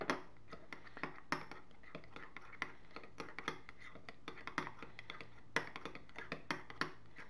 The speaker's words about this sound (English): You can then scrape off the other spoon there, so you get it fully mixed in.